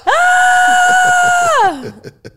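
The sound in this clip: A person screams loudly in a sustained, steady high-pitched tone for about one and a half seconds, then the voice slides downward and breaks off, followed by brief softer vocal sounds.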